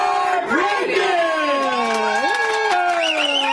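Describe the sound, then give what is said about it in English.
Screams of joy at pregnancy news delivered by phone from a fertility doctor, with several high, sustained shrieks sliding up and down in pitch and overlapping loudly throughout. “Finally, screams of joy. This fertility doctor is calling a patient with some very exciting news.”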